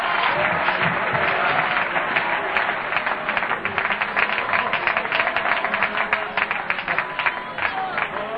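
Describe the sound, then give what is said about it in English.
A church audience claps its hands steadily and densely throughout, the sharp overlapping claps forming a continuous loud wash with crowd noise and raised voices mixed in. “Clap your hands. Shout unto the Lord. Cry out to Him.”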